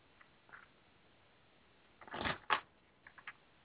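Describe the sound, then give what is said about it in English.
An oracle card is shuffled and pulled from a deck: a faint soft rustle, then a longer papery riffle burst and a sharper slap, followed by a few small quick clicks, quiet and heard alone. “What I'm doing, I'm asking the angels here, and I'm pulling a card for you.”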